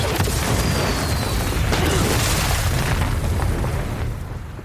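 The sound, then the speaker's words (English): A rocket explosion in an action film scene: a loud, sustained, rumbling blast that roars steadily for several seconds, then fades toward the end. “Did he just catch a rocket? He caught a rocket.”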